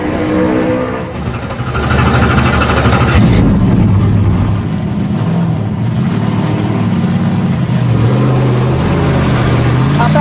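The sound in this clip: Loud engine roar from a two-seater race car driven by a race champion during a lap. The drone is continuous and heavy, and its pitch shifts a few times as the car runs.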